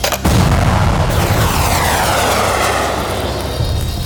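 A bomb launched from a spaceship in a science-fiction drama: a sharp boom opens, then a loud, steady rushing roar like a jet engine that holds to the end, with a sweeping, shifting tone through the middle.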